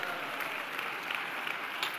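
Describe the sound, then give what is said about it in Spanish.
A church audience applauds in praise of God during a sermon. The clapping is soft and even, a steady patter with no breaks. “dale un aplauso a Dios, amado hermano.”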